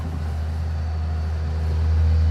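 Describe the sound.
A forestry harvester with a 1.2-tonne felling head drives across a field, its engine a low, steady diesel drone that grows slightly louder toward the end.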